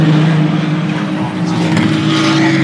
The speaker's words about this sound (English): And as I'm sure you've worked out, there goes a Toyota,